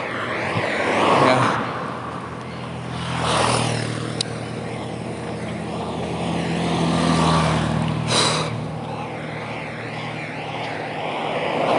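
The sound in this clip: A car being driven, with a continuous low engine rumble and road noise that swells louder and softer at several points.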